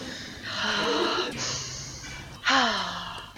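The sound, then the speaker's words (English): A nervous person takes a few deep breaths before speaking into a microphone. The airy inhales and exhales are clearly audible, and the last breath swells into a louder, partly voiced sigh. “Try taking a few deep breaths before you start, okay?”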